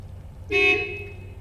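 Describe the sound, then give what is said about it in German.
A car horn honks once outside a run-down building in Cologne, a single steady, bright toot lasting about half a second over a constant low rumble. “Das Auto hupt.”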